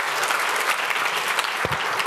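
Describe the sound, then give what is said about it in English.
Audience applause for a speaker after a conference talk, a dense, loud and continuous wash of many hands clapping that holds steady for the whole stretch. “please give a warm applause to our speaker, Tim Becker.”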